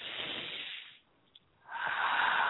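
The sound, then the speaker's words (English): A deep breath drawn in through the nose and let out through the mouth: two long, soft, airy rushes of breath separated by a brief quiet pause, with no talking. “take a minute and take a deep breath in through our nose and out through our mouth.”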